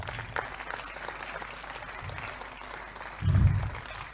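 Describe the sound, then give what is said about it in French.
An audience applauds during a church teaching session, a steady, moderate patter of clapping, with one low thud near the end. “Est-ce qu'on peut applaudir pour Jésus?”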